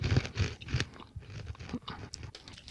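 Someone chews sunflower seeds, producing many crunchy, crackling bites in an irregular rhythm at a moderate, steady level, with no talking.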